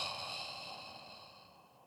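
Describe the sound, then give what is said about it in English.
A long, soft breath during a guided throat chakra breathing exercise, one airy rush of air that fades gradually over about two seconds, faint and with no talk. “Take a deep breath in and blow into your throat chakra region.”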